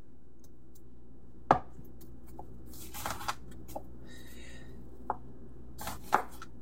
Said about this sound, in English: Now over here, I have one onion and I'm going to just slice it across the roots.